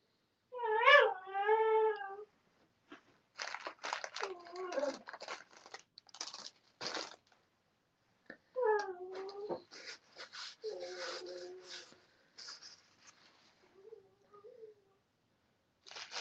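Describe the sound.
A dog whines at home while a gingerbread house is being built, giving high, wavering whimpers and yelps in scattered bursts with pauses between them, with faint crinkling and rustling in between.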